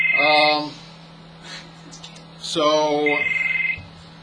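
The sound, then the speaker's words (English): Incoming call on a phone: two electronic, tonal ringtone bursts, the second longer and ending on a steady high note, over a constant low hum. “And who's trying to call me at this hour? I'll let it go to the voicemail.”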